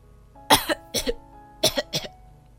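Coughing from someone choking on jelly: a series of short, harsh coughs bunched in quick pairs, loud against a quiet background.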